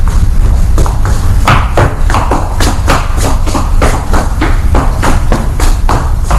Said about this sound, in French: Xavier essaye de le retrouver. Il court dans les rues.